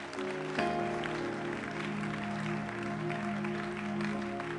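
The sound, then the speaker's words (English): An audience claps hands in a church service, a dense, steady wash of clapping that holds throughout, with sustained musical tones underneath. “Are you clapping hands for the Lord?”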